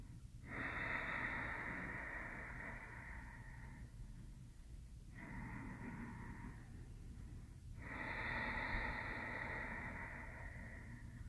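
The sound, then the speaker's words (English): Slow Ujjayi yoga breathing drawn through a slightly closed throat makes a steady, soft rushing hiss. Three long breaths follow one another with brief pauses between them. “Begin to close slightly through the back of the throat as you breathe, activating your Ujjayi breath.”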